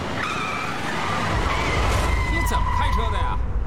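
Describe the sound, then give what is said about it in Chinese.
A car swerves and skids with a loud, sustained tire squeal that holds high, wavering screeches for most of the moment over a heavy rumbling roar of engine and road noise. “对不起，对不起，刚才意识跑偏了，车也跑偏了。”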